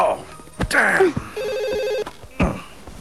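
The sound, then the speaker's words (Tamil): A telephone ringing in a single bright electronic trill, with people talking just before and after it. “இல்ல, phone அடிக்குதுங்க.”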